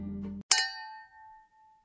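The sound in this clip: A single sharp clink of glassware in a toast, its bright ringing tone hanging on and fading away over about a second.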